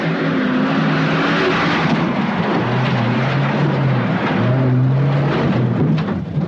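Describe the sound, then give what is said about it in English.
A Land Rover's engine roars as it drives at breakneck speed across rough country, making a loud, constant drone with low engine tones that shift in pitch throughout. “Webb drives toward the three at breakneck speed.”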